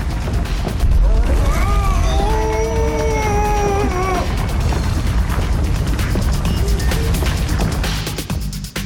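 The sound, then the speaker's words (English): A comedy sound-effect earthquake rumble, caused by someone dancing, roars as a loud, continuous crashing rumble for nearly the whole clip, with a high wailing tone sounding over its first half. “He's dancing so hard he's causing an earthquake.”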